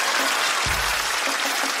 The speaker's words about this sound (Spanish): Las mujeres empoderadas te aplauden.